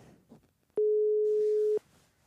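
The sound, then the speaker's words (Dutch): A telephone call tone: a single steady mid-pitched beep lasting about a second, with faint background noise before and after it. “En nou, we gaan hem even bellen.”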